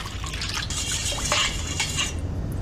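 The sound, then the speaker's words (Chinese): Salt, cooking wine, soy sauce and water are stirred together in a bowl for cleaning pork kidneys, giving steady liquid sloshing with light clinks and scrapes throughout, no talk. “盆中加入适量的食用盐，加入料酒100克，加入适量的生抽，最后加入适量的清水拌匀，”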